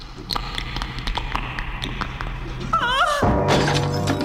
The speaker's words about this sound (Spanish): En el exterior, un zombi rompe un faro de la camioneta.